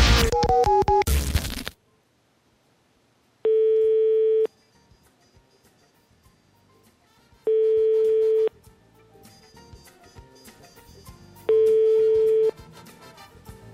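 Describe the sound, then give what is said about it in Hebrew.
A phone number is dialed: a short noisy burst of dialing tones, then three steady ringback tones, each about a second long, recurring every four seconds with quiet gaps between. “חיוג 325, עכשיו בזמן אוויר.”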